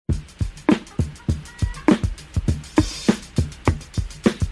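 Opening section of a sampled funk drum loop taken from a record: tight kick and snare strikes with a hissing cymbal layer, driving in an even, danceable pulse. Many loud hits follow one another without pause, with no voices.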